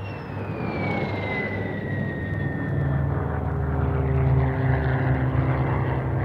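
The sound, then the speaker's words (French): A Dassault Ouragan jet fighter landing at around 180–200 km/h, its high turbine whine sliding steadily downward in pitch over the first seconds above a broad, steady engine roar that swells slightly toward the end. “Le colonel Rozanov vient de poser en 350 mètres environ, et d'une façon magistrale, le Marcel Bloch Dassault Ouragan.”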